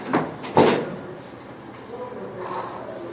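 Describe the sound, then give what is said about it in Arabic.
A door is pulled shut during a religious lecture, giving two short wooden knocks close together, the second louder and sharper, followed by quieter murmuring noise. “بس لو تسد الباب بدون زحمة.”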